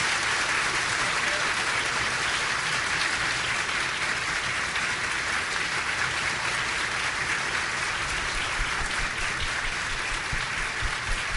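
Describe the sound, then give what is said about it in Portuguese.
Audience applause at a seminar, a dense, steady clapping of many hands that stays even and moderately loud for the whole stretch with no pause. “Terminamos agora do Sibélio Donato, muito aplaudido pelo público.”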